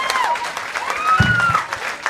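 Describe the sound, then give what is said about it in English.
Audience applause greets tattooers from East Brunswick Tattoos, a dense wash of clapping that holds steady for about two seconds. “We've got give a round of applause to our tattooers from East Brunswick Tattoos.”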